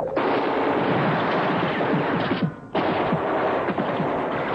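Heavy gunfire in a war drama, a night battle with German troops in a mountain pass: dense, loud, continuous volleys of rapid shots that break off briefly midway, then resume just as thick.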